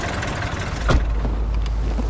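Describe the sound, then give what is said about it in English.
A taxi pulls up and stops, then settles into a low, steady engine idle under broad, continuous traffic noise. “Taxi! A car is pulling up to stop.”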